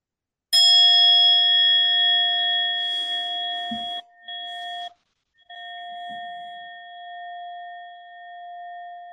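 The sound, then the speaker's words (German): A singing bowl struck once at the start of a Buddhist meditation session, giving a clear metallic onset and then a long sustained ring with a steady low tone and bright overtones, which briefly cuts out twice and slowly fades. “Dann hört mit mir kurz auf die Klangschale”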